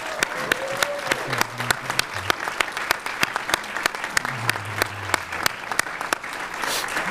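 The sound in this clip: Applause celebrating the launch of the LADEE moon mission, a steady wash of sharp claps that holds evenly throughout, with faint low voices underneath.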